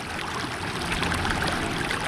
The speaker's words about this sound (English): It is a beautiful, blustery day here on the Cedar River near North Bend.